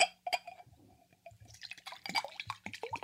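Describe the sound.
Water is poured into glasses. Clear glass clinks come first, then a bubbling, splashy pour with short, quiet gurgles.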